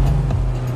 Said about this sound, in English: Here's Anto driving home in his new sporty Octavia RS.